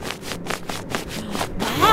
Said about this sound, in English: Oh, tricks that twist I do. Example for, pat your head and rub your belly.